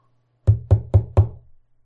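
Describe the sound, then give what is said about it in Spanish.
Four sharp, evenly spaced knocks on a manager's office door, each a dull wooden rap followed by a short decay, over a faint low hum. “Finalmente, se detuvo frente a la puerta del gerente y tocó.”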